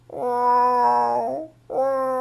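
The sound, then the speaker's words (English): A human voice imitates a female cat in heat calling for a tomcat: a long, loud, drawn-out yowl that wavers and trails off, then a second yowl starts, over a low steady hum. “Now, I have two female cats. And when they are looking for a man cat, or in English we say a tomcat, they do this sound.”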